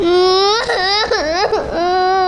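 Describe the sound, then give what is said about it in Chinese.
A frightened young child cries in a continuous, loud wail whose pitch wavers and dips, broken by a few brief catches of breath, heard alone without other voices. “鱼儿啊，你怎么哭了？”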